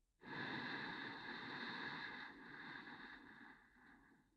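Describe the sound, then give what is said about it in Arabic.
A deep, slow inhalation during a guided breathing exercise draws in steadily as one soft, airy breath lasting about four seconds, fading gently at the end. “فخلينا نبدأ. شهيق”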